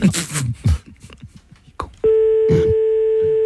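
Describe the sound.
A telephone tone heard while calling: people talk first, then a loud, steady, unbroken tone sets in and holds to the end, with a voice briefly over it.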